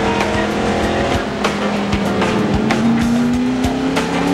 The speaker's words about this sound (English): Porter is speeding down the alley.